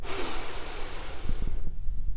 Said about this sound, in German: und atme ganz tief durch die Nase ein und durch den Mund wieder aus.